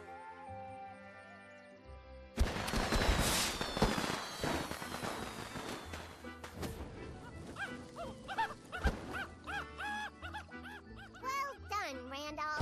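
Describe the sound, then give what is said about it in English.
Fireworks going off at a birthday gathering: a loud burst of crackling bangs with high whistling streaks, followed by dog-like barks and yips. “Got the fireworks? Oh, yeah.”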